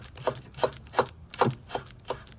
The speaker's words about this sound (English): Laura chops vegetables with a knife.